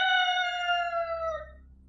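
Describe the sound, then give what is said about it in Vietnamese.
A rooster crows outside a house in the early hours before morning: one drawn-out harmonic crow held at a fairly steady pitch, sagging slightly at the end before fading, with no voices. “Bên ngoài gà đã bắt đầu gáy.”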